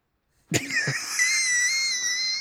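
A high, thin wheeze sets in after two brief bursts and holds as a steady whistling tone to the end, with no voices.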